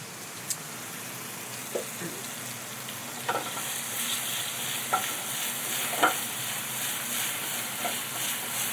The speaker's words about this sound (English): Some of these tomatoes have like a really nice caramelization on them. That's what I want. I'm seasoning them with a little pinch. And then I'm about to start moving into all the other vegetables.